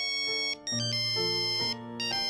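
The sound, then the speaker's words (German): A mobile phone ringtone plays a loud, bright electronic melody of sustained tonal notes in a short repeating pattern, with no voices over it. “Herr, guck doch mal hier. Hören Sie? Handy.”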